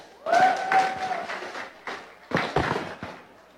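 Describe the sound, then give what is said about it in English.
Audience applause welcoming a performer back to the stage at a Nerd Nite live event: loose, crackling clapping in uneven bursts that swells, thins briefly, then picks up again before trailing off. “So let's put our hands together and welcome back Wonders by Jane.”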